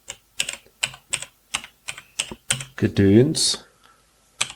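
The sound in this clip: Typing on a computer keyboard while entering a startup display message for a device: a steady run of crisp, evenly spaced keystrokes, a brief voice partway through, then one last isolated keystroke.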